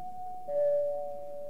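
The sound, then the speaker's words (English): An airport departure lounge announcement chime rings as a two-note ding-dong: a clear higher tone followed by a slightly lower, sustained tone that fades gently. “Announcements. Listen. In the departure lounge.”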